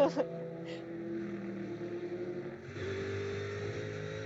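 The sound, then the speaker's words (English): Number 28 Mercedes-AMG GT race car in the GTD class on the front straight of a racetrack, heading toward the first corner: a sustained, droning engine note with strong harmonic tones that shifts in pitch partway through. “Allegra Motorsports, number 28 AMG on the front straight, now heading down towards the first corner.”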